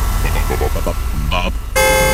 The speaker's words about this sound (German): Na also, Hupen ist auch keine Lösung.